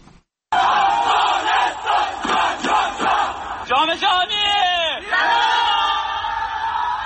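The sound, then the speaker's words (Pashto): Crowds warmly welcoming the Afghanistan national futsal team: loud, sustained shouting and cheering in surging, chant-like bursts, dense with many voices throughout. “نړیوال جام ته د افغانستان د فوټسال د ملي لوبډلې لارموندنه په بیلابیلو ولایتونو کې د خلکو له تود هرکلی سره مخامخ شوې ده.”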